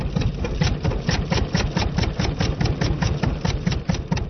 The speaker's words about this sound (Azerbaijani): Bircə, işıq əldə eləmək üçün benzinlə işə salınan generatorların səsindən başqa.